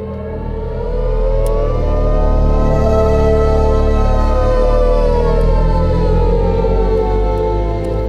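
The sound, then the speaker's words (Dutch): Synthetic acceleration sound of an electric car at full throttle on a motorway on-ramp, a sci-fi-style soundscape: a loud, continuous layered tone of stacked harmonic hums swells in and holds steady for the whole stretch. “En die maakt waanzinnige geluiden. Dus je geeft gas en dan hoor je een soort Star Trek-achtige soundscape aanzwellen.”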